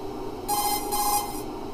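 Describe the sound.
A nano communication codec call ringing in the video game Metal Gear Solid 2, with two short bursts of bright electronic trilling over a steady background hum.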